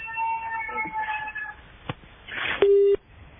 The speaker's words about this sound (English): Sorry, that caller dropping the line on us.